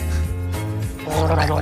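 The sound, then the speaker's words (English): A person gargles hot coffee, producing a loud, throaty, bubbling gurgle with a voiced hum running through it. The gurgle breaks briefly near the middle, then resumes more strongly. “Why don't you practice gargling? Right now? Can you gargle?”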